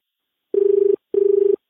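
A telephone call rings on the line. Two identical steady buzzing rings, each about half a second long, are separated by a short gap.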